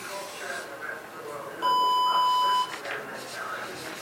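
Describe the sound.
An electronic buzzer sounds a single steady beep lasting about a second, a bright, sustained tone with clear overtones above a low background hiss.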